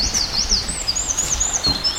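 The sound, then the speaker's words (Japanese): Song of a winter wren, a tiny bird smaller than a sparrow with a loud voice, pouring out a rapid, high, warbling run of notes over low background rumble. “こちらからいい声で聞こえてくるのがミソサザイという鳥のさえずりです。 ミソサザイ、 とってもちっちゃい鳥ですね。”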